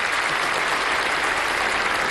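An audience applauds during a presentation on visa bulletin categories. The clapping is brief, dense and steady, with no voices over it.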